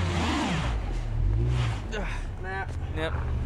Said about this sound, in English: That's because when the driver accelerates, only one rear wheel spins, providing no traction in 2 feet of snow.